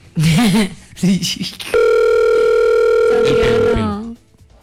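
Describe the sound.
A telephone call rings unanswered: a single long, steady ringing tone holds for about two seconds, with a person talking just before it and again as it ends.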